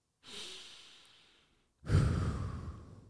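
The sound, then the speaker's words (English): Two deep breaths with no talk: a long, soft exhale that tapers away, then after a short pause a louder, fuller breath that stays strong to the end. “you take a few deep breaths.”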